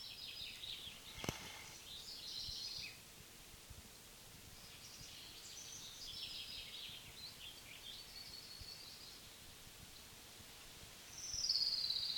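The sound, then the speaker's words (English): Pine's ground warbler song: several thin, high phrases of rapid notes, faint over a steady background hiss, with a sharp click near the start. “Pines Ground Warbler number one.”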